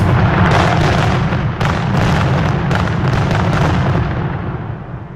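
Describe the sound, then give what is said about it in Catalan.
Fireworks rockets exploding in a dense, continuous barrage of loud booms and crackling bursts, easing slightly toward the end, with no voices. “Són coets? O és el meu cor? Són coets.”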